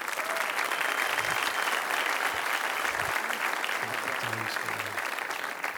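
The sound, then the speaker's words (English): Church audience applause welcoming a pastor to the stage, a dense, continuous wash of clapping that stays level from start to finish with no talk. “Would you put your hands together and welcome to the stage, Pastor Kevin York.”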